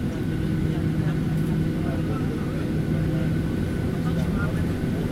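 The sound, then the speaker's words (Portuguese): Steady airplane engine drone as an aircraft prepares for takeoff, a constant low rumble with a faint steady hum that holds unchanged throughout. “Vamos nos preparar para a decolagem.”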